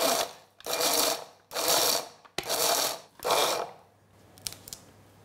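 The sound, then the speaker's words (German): Walnut kernels and two tablespoons of sugar are ground in a nut grinder, giving several loud bursts of rough, whirring grinding with short pauses between them, followed by a few faint clicks at the end. “Und ich habe hier 50 Gramm Walnusskerne und 2 Esslöffel Zucker. Und das mahle ich jetzt zu geriebenen Nüssen, wenn man so will.”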